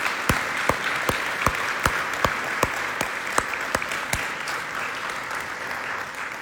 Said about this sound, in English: I want us to extend a warm Heart of Life welcome to our Taiwan friends who are here with us for a couple of weeks. Can we do that? Heart of Life, can we welcome them today?